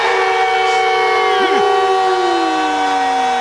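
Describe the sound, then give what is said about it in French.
A hockey goal siren blares at the arena as one loud, sustained horn tone with rich harmonics. It holds steady through the whole clip, and its pitch sags slightly toward the end. “Comme l'impression qu'on va l'entendre souvent, la sirène avec le nom Suzuki.”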